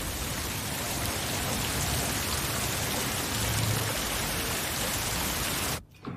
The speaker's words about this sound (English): Rain pours down around it.